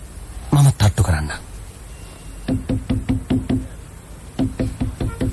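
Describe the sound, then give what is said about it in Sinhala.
Knocking on a slightly open office door, Sherlock Holmes drama scene: after a brief voice, two bursts of sharp, rapid knuckle raps follow, the first longer, the second shorter, each knock crisp and moderately loud. “මිස පේකොෆ්ට් තට්ටු කරලා බලන්න. Office කාමරේ දොර යාන්තමට ඇරිලා.”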